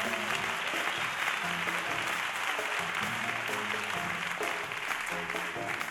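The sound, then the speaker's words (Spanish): Audience applause for a pianist at a big band concert in a theater: dense, steady clapping from many hands that holds at an even level throughout. “Se llama Juanjo, un aplauso para él”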